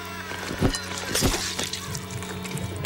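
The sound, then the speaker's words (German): Liquid glugging from a bottle rammed into a man's throat, a few gurgling bursts over a steady low tonal hum in a dark horror drama. “Er rammt sich die Flasche in die Kehle.”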